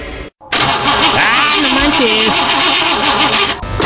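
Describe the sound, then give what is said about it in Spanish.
A car engine cranks without catching after having new engine seals and spark plugs fitted. The starter churns steadily for about three seconds with a rhythmic, wavering whine. “Le acabo de poner los sellos al motor, le cambié bujías y ya no quiere jalar.”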